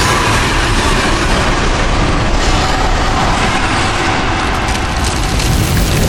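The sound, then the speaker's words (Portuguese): A deafening dragon roar sound effect for a red dragon in a tabletop role-playing game scene: a loud, dense, rumbling roar that holds steady for about six seconds with no pause and no talk. “vocês veem a forma crescendo e de repente vocês escutam um rugido ensurdecedor naquele ambiente.”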